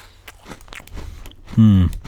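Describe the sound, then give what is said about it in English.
Crunchy bites into an Oreo cookie held right at the microphone: a few faint crisp crackles, then one louder, sustained mouthful of crunching and chewing, with voiced sounds mixed in. “Here's the Oreo cookie on the microphone. Perfect. Take a bite.”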